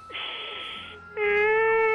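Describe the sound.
A person crying: a breathy, hissing sob followed by a loud, sustained, high-pitched wail held on a steady pitch.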